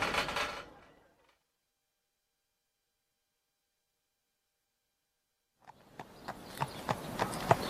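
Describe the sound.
Horse hooves clip-clop on a ride: a steady run of sharp, regular clops that grows louder toward the end, following a fading noise and a long near-silent gap.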